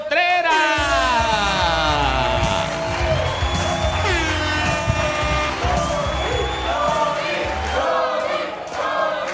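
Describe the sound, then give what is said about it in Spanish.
A stand-up comedy audience cheers, whoops and claps as a comedian is introduced, with loud overlapping shouts and sliding cries over a continuous roar of applause that holds steady throughout. “¡Fuerte aplauso para Loni”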